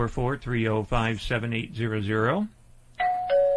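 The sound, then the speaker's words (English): Doorbell chiming a two-tone ding-dong, clear and sustained, sounding right after a stretch of a voice talking. “Doorbell, somebody's here.”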